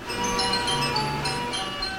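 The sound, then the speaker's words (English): Carousel music from a merry-go-round in Kansas: a bright, tinkling organ-like melody with sustained high tones over a low drone, playing alone at moderate volume. “The sound of a carousel. You've probably heard it dozens, if not hundreds, of times. They're usually found in carnivals, amusement parks, or occasionally in upscale shopping centers.”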